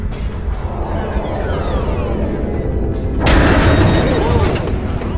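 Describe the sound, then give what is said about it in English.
A mine rigged with a proximity trigger detonates against a shielded ship: a loud, steady low rumble abruptly swells into a harsher, brighter blast that roars on without fading. “No, sir. That was a mine. Someone left it behind and rigged a proximity trigger.”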